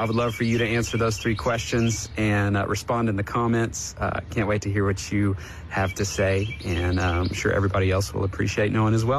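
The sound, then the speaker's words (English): Birds chirp and tweet faintly in the background while a person talks steadily in the foreground, the small high calls scattered beneath the speech. “I loved hearing the birds in the background there.”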